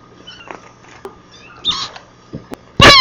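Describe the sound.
A cat and kittens mewing: a few faint, high squeaky mews early on, a brief brighter cry in the middle, then one loud, sharp mew right at the end.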